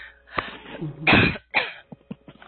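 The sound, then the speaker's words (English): Throat clearing: several rough, raspy bursts, with a long harsh rasp in the middle followed by a few shorter hacks. “I'm clearing something in the throat for you.”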